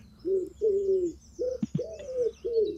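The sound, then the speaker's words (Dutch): A wood pigeon coos in a rhythmic phrase of low, hollow, drawn-out notes separated by short pauses, with a couple of soft clicks between them, clear against a quiet background. “Wat is dit dan? Geweldig. Dat is een houtduif.”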